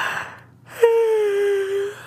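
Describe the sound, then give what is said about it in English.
A tired person yawns late at night after working all day at a loom. A quick intake of breath opens into a drawn-out voiced tone that slides gently lower before fading, fairly soft and heard alone. “You're yawning.”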